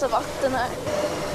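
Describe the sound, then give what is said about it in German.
Rushing seawater pours into a boat in high seas, a brief hissing wash of water under a voice. “Hier kommt ganz schön viel Wasser rein.”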